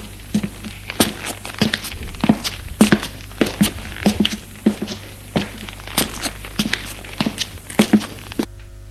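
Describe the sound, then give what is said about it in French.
Footsteps climbing worn stone stairs in the entryway of a run-down apartment building, with many separate treads at an uneven walking pace for about eight seconds over a low, steady hum. “Il fait monter des escaliers de pierre usée, ça sent mauvais.”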